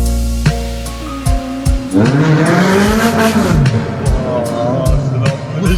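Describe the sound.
A young man revs an old motorbike as it rides past, the engine's tone swelling and sinking in pitch as it goes by, loud and steady throughout.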